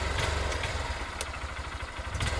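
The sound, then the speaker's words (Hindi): A motorcycle engine with a boy riding along, giving a continuous low rumble with a rough clatter and small recurring bursts of noise. “फिर उस आदमी ने तुषार को अपने bike में बैठने को बोला, बाइक पे बैठ जाओ, मैं तुम्हें स्कूल छोड़ आऊंगा। तुषार बाइक में उठता है”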